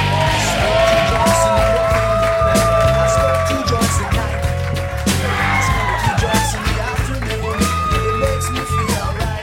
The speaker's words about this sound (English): Put your hands together, you guys.